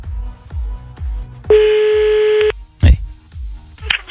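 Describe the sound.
A telephone tone sounds as a call is placed: a single steady, mid-pitched beep lasting about one second. A rhythmic low thumping beat runs before and after it.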